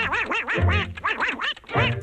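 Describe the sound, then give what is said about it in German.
Cartoon duck quacking in a raspy, nasal voice of the world's best-known cartoon duck, a rapid run of rising and falling squawky syllables, loud and alone. “Ich habe hier die wahrscheinlich bekannteste Ente der Welt für euch.”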